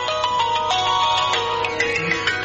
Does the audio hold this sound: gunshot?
no